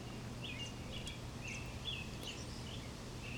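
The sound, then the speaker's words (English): A bird sings outdoors, giving several short, high, faint chirps spread across the moment over a steady low background hiss. “Oh, that's a good bird. I'm sure you heard that one.”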